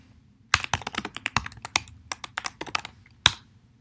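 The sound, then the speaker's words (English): A passphrase typed on a computer keyboard: many quick, crisp keystrokes in an uneven rhythm, ending with one sharper, louder key tap. “I have to type in my new passphrase that I do remember now. Press enter.”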